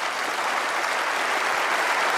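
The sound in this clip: Applause from an audience welcoming a guest out for an interview, dense and steady clapping that holds at an even, fairly loud level throughout, with no voices.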